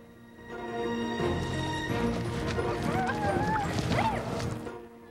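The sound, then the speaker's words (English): Horses galloping side by side across a field, their hooves kicking up dust, making a steady, dense drumming of hoofbeats that holds at an even loudness throughout. “The horses' hooves kick up dust as they gallop along.”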